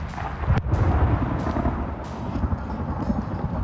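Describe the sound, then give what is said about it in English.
A single sharp gunshot cracks out early during a crow hunt, set against a steady, low, rumbling background noise that continues after it. “Call him in close. Shoot him with the pop gun.”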